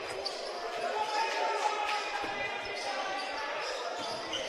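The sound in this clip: A basketball is dribbled up the court during a Warrior basketball game. The bounces sound under a steady wash of crowd noise and voices.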